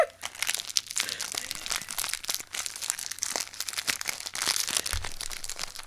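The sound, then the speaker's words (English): Crinkling of a plastic bag of fruit snacks being opened, a sustained run of sharp crackles and rustles, irregular and fairly faint, with no talk. “I'm opening a bag of fruit snacks.”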